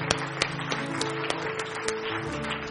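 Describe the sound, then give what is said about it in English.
Congregation hand clapping during a church service: sharp claps land in a steady, regular beat over sustained musical tones, with the overall level even and moderate. “Give the Lord a hand clap this morning.”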